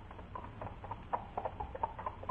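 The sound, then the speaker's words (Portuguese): Hooves of a saddled horse clip-clop as it is ridden at a steady pace, a run of many evenly spaced, moderately loud knocks with no voices over them. “E mandando selar o seu cavalo, rumou incontinente para a situação vizinha.”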